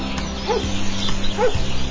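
A dog barks, the grandfather's dog, giving two short barks about a second apart over a steady low background hum.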